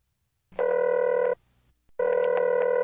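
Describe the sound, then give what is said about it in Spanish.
A telephone ringback tone plays while a call connects. Two steady, pitched ring bursts are separated by a short gap, and the second runs to the end. “Ahora empezará tu llamada.”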